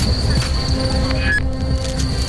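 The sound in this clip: A departing train gives a continuous rumble under thin, high, squealing wheel tones that hold steady through the whole stretch.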